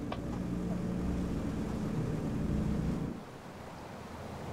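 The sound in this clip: Motorboat engine drone mixed with wind and water wash as the boat steers around driftwood and seaweed at sea, a steady loud rumble that drops abruptly after about three seconds to a quieter hiss.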